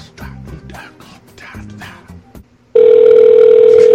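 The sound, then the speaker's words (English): A fax machine transmitting over a phone line: a loud, steady electronic tone with a hissing wash cuts in abruptly and holds unbroken to the end, following a stretch of quieter, broken sounds. “Because that's how fax machines work. They just dissolve and digitally over the phone line, and they head on over.”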